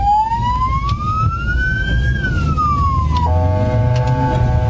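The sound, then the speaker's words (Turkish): An ambulance siren wails as it rushes a patient through traffic. Its tone climbs slowly for about two seconds and then falls, before a steady, harmonic horn-like blast takes over. It is loud over a constant low road rumble. “Ambulans şoförünün hastayı yetiştirmek için zamanla yarışanları araç kamerasına böyle yansıdı.”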